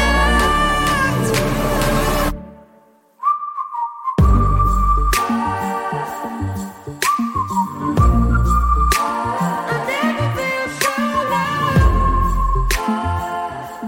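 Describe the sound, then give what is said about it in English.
A whistling solo in a song: a thin, steady whistled tone rises out of a brief near-silent break, then long held whistled notes carry on above a full band with pulsing low beats. “we got the whistling. Yeah, in there. Very nice. Yeah, whistling solo”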